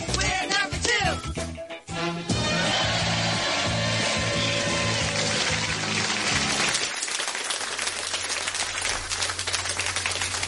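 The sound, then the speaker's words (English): Loud audience clapping and applause after a show's introduction, a dense, continuous patter that stays strong for several seconds, then thins to a lighter clatter toward the end. “Hello and whoa, that was loud. Hello and welcome to another. Stop clapping.”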